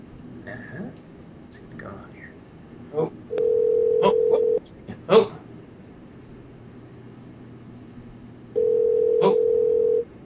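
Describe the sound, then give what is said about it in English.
Telephone ringing on a call line: two long, steady, even ringback tones of about a second and a half each, separated by several seconds of quiet murmured talk and small clicks. “the Gonzo phone doesn't beep numbers, so trust me when I'm saying that I'm actually dialing numbers. It's really working. Yes, beep up. You're probably gonna ring.”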